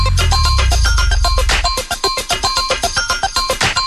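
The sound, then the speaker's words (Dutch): Metallic cowbell strikes ring out in a funky summer dance track, many evenly spaced hits keeping a steady beat after an opening stretch of heavy low bass rumble. “Even de koeienbel slingeren hoor, hé.”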